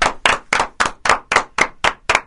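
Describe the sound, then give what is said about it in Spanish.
Rhythmic, evenly spaced claps, nine sharp beats in a steady pulse with brief silences between them, moderate in strength. “Hay aplausos más moderados.”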